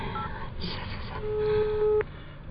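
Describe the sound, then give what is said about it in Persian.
A steady electronic telephone tone sounds while someone dials the police emergency number 110 on a keypad. It holds for under a second and cuts off abruptly, over a constant rough background noise. “من 118 رو چرا میگیرم؟ 8 تا اضافه گرفتم، بس 110 رو بگیرم.”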